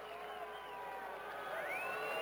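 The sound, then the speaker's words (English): Baseball fans boo pitcher Soto after a line-drive base hit, a faint, steady, low drone of many voices held through the whole stretch with no break. “Boo go the fans. They just do not like Soto. They were booing him the other night.”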